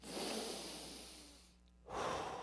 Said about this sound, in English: You're going to take 40 huge breaths through the nose.